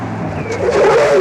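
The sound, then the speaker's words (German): A car braking sharply on an approach road, its tyres letting out a loud, rising screech over a steady engine rumble. “Warum bremst du denn”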